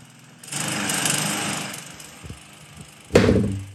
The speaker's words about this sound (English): 9 a.m. Saturday morning. Gotta mow the lawns, love.